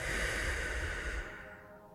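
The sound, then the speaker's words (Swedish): A deep breath is released as a long, breathy rush of air that stays steady for about a second and then tails off into quiet. “Så nu, ta ett lite djupare andetag. Och släpp ut det.”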